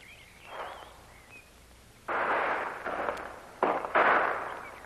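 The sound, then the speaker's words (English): Gunshots from a lone man holding a hilltop ridge against attackers firing from the slope below: a faint early report, then a few loud, sharp blasts in quick, uneven succession, each with a brief decaying tail. “it's only one man. You can tell by the shots.”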